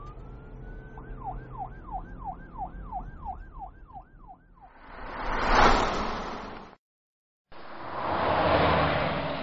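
Police car sirens wailing in the distance, a rapid up-and-down electronic wail repeating through many quick cycles, then giving way to a loud, broad rushing swell that cuts off briefly and resumes.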